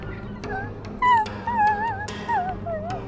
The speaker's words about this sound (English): You hear a whimpering